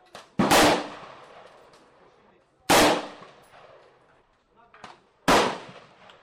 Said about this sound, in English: Last round, bolt locks back, drop the mag, put the weapon on safety, down on the table, chamber opens, gun is safe.